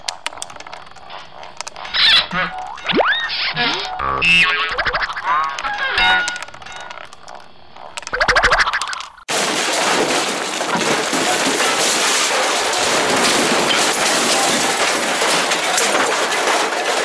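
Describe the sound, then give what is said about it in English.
A homemade roulette wheel spins with a dried pea as the ball. A steady, loud rushing rattle fills the second half, after a stretch of brief, varied tonal sounds. “When I spin it round, I drop the ball in, and when it stops, it lands on a red or a black number. Where did you get the ball? We're actually using a dried pea for that. Watch this.”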